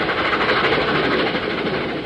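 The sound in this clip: A freight train passes, making a steady, loud rumble of rolling railcars that holds at an even level through the whole short stretch.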